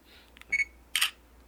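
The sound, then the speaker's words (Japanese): A mobile phone camera shutter fires once: a short, clear electronic beep, then a sharp, bright shutter burst about half a second later. Both are quiet and stand alone with no talk. “佐藤君のね携帯の撮る音はそういう音なんですよ”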